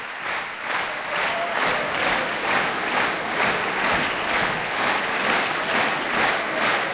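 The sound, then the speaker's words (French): An audience at La Roque d'Anthéron claps in rhythmic unison to call two performers back on stage. The applause pulses at an even, steady beat and stays loud from start to finish. “Vous l'entendez, Ludmila Berninskaya et Arthur Ancel sont rappelés par le public de la Roque d'Antero. Ils reviennent sur scène.”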